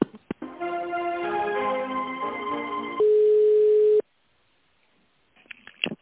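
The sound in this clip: Telephone line tones while a call is connects: a layered tonal pattern of several pitched notes, then a single steady beep lasting about a second that cuts off abruptly into silence, followed by a few faint brief noises at the end.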